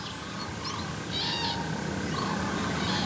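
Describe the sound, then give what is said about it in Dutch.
Five common cranes calling in flight over a wild, inhospitable area give a few short, ringing trumpet-like calls. They are fairly faint above a steady background hiss. “Oké, daar vliegen 5 kraanvogels. Even kijken. Ja, 5 kraanvogels.”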